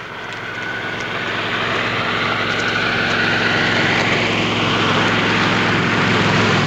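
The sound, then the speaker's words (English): Droning propeller engine of a crop duster airplane flying unsteadily over fields beside a highway, a loud, steady, low hum with a broad rushing roar that swells slightly and holds throughout. “The crop duster wavers unsteadily as it flies over the fields across the highway and readies for another turn.”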